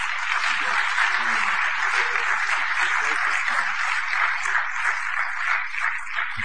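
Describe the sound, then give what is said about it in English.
A church audience applauds to welcome a returning member, a dense, even wash of clapping that holds steady throughout. “Let's give him a big hand.”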